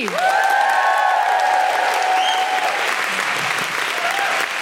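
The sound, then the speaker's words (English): An audience claps and whoops as a stand-up comedian is introduced at a live comedy show. The applause is loud and continuous, with drawn-out woohoo cries ringing over it in the first half. “Then please put your hands together and make general woohooing noises for Sindhu V.”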